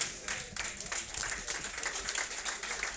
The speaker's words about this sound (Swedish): Ja, lite mer applåder vill vi vill höra.